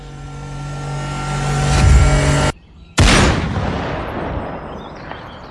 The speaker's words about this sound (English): Got him. You shot him in the throat.